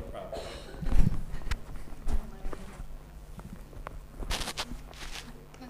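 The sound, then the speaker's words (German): Microphones are handled and swapped, producing irregular bumps, knocks and rustles. The noises are fairly quiet overall, with a few sharper thumps standing out, the loudest near the start. “Können wir die Mikrofone schnell tauschen? Ja. Sorry, I cannot handle this.”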